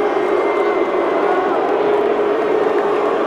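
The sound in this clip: Crowd cheering sound effect, a steady, dense roar of many voices that stays level and loud throughout without clear peaks.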